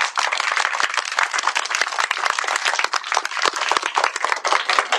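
Schoolchildren applauding loudly for their teacher, a dense and vigorous burst of many small hands clapping at once, sustained and uneven in texture.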